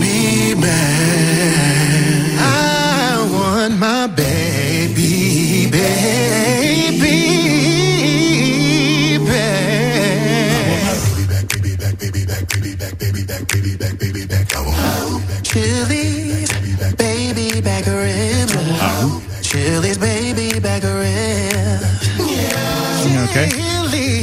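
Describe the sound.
Restaurant baby back ribs jingle in a new version sung by a vocal group: layered, harmonized singing over a steady bass line and beat, loud and continuous throughout.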